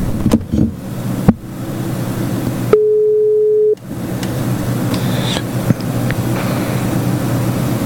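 A telephone line tone sounds while a call is being placed: a single steady beep lasting about a second, set among low background noise and a few faint clicks.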